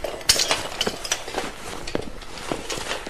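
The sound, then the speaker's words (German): Broken glass shards being picked up, a scatter of small bright chinks, clinks and taps with soft scraping between them, irregular and moderately quiet, with no talk. “Schnell helft mir, die Scherben aufzusammeln.”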